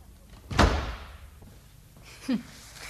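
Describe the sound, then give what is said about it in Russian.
A door slams shut with one sharp, heavy thud that rings out briefly. Later comes a quieter short knock, with no voices over it. “Дверь захлопните покрепче.”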